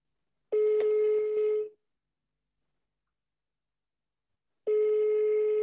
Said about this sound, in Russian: Ну что? Звоним? Да, набирай.